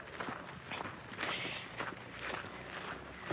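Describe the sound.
Footsteps walking at a steady pace, a regular series of soft scuffing steps with no talking.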